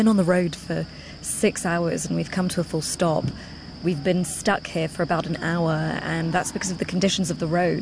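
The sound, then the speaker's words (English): Crickets chirp at night beside a narrow, muddy road where aid trucks sit stalled, a steady high trill running continuously beneath a man's almost unbroken talk. “That is the sound of crickets because it's now nighttime.”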